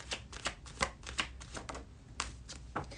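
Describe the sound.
Tarot cards being shuffled before a weekly card pull: many quick, crisp flutters and slaps arrive in uneven bursts, with a short lull midway and no talking.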